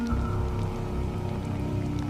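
Rain falls at night in a steady, even hiss of many small drops, with a low sustained hum underneath and no voices.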